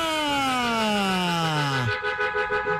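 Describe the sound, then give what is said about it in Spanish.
Ambulance siren wailing loudly with a smooth downward glide in pitch, then breaking off abruptly about two-thirds through and leaving a softer, wavering noise. “Uy, señor, tiene una ambulancia.”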